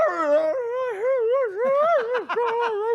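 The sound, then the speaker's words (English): An excited dog howls and whines in a run of long, wavering, tonal cries that rise and fall in pitch, ending in quicker yelping whimpers, with no voices over it. “She's so excited. she gets this howly, whiny, like, and so as we pass people walking their dogs, yep, it's all like,”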